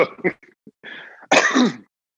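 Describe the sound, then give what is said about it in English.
Someone clears their throat: a few short, rough bursts, then a longer, louder rasping push before the sound stops. “I'm always concerned when I clear my throat.”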